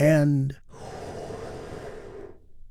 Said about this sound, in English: Let's take one more big, deep, healing breath all together. Here we go.